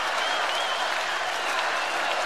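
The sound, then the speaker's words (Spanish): Dense, steady applause from the audience at the Quinta Vergara, an even wash of many hands clapping that stays fairly soft and unbroken throughout. “Frente a este gran aplauso y a este grito,”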